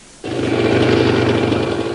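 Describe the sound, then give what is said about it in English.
Buzzing engine of an off-road motorbike ridden illegally on common land starts abruptly and holds a loud, steady, droning note to the end. “A teenage biker riding an illegal machine on common land makes his escape, taunting police.”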